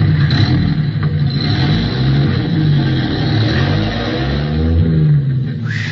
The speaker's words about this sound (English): Shaking his head sympathetically, the truck driver shifts gears and roars off into the night